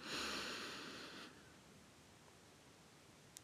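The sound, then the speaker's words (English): A deep breath drawn in, a breathy hiss lasting about a second that then fades to near silence, with no talk. “Take a deep breath in”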